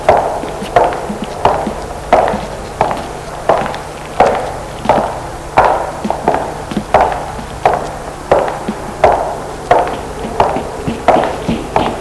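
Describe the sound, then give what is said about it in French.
Footsteps coming up from behind, many even, hard thuds in a steady regular rhythm, fairly loud and with no voices. “Les pas continuent. Ses pas se rapprochent de plus en plus.”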